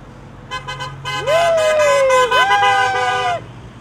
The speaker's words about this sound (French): Allez, klaxonnez.